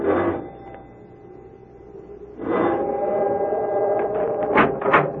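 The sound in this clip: A doorbell rung at a large oak door gives two sustained chime tones. The second rings on and fades slowly, with a few soft clicks near the end.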